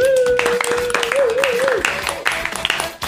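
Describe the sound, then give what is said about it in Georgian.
Applause for young performers: claps of varied strength, some sharp and some soft, sounding alongside a voice that carries a sustained, wavering tone through the first half. “ტაში ჩემო ძვირფასებო ეს არაჩვეულებრივი ტაში”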